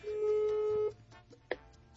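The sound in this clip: Ringback tone of an unanswered telephone call: one steady, mid-low beep lasts just under a second and then stops, leaving faint background noise and a brief click.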